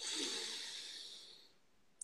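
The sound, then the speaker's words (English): One slow, deliberate breath during a guided relaxation exercise, a soft, airy rush that gradually thins and fades over about a second and a half. It is quiet and stands alone. “take an inhale in through the nose and then out through the mouth, in through the nose,”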